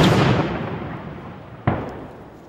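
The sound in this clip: Outgoing artillery fire during a war: a broad, booming rumble that fades slowly, followed by a second sharp report near the end, with no speech.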